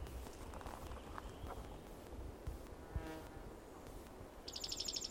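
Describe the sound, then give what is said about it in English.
A bird sings softly and faintly with a few thin, high chirps, clearest near the end, over a low steady background. “bird singing softly”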